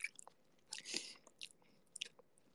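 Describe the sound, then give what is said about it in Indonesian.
Quiet, wet chewing and slurping of an egg, heard as a few soft, moist mouth bursts separated by short pauses, alone without talking. “Aku lagi seruput ini telur. Nyam nyam nyam. Telur.”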